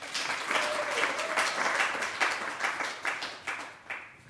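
Audience applause greets a reader before a story reading: dense, even clapping with rhythmic surges that thins out and fades at the end.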